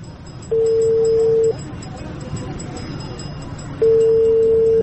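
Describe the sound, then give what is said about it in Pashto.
An outgoing telephone call rings: two long, steady mid-pitched tones, each about a second, separated by a pause of a couple of seconds, over a constant low background rumble. “ته صبر، یو زنګ ووهم.”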